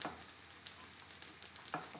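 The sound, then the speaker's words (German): Small round patties frying gently in hazelnut-browned butter in a pan over medium heat, a faint, steady sizzle with scattered light crackles throughout. “Und jetzt einfach mit einem Esslöffel kleine, runde Küchlein reinsetzen. Sanft auf mittlerer Hitze braten.”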